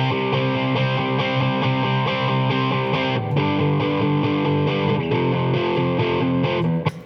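Distorted electric guitar plays standard power chords in a steady, driving rhythm from a pop-punk song, the chord shifting partway through before the playing stops abruptly near the end.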